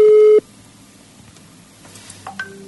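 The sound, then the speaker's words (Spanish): A telephone tone on an outgoing call, a brief steady beep that cuts off, then quiet line hiss and a couple of faint electronic blips. “Vamos a ver si nos atiende. Estamos llamando a una figura nacional.”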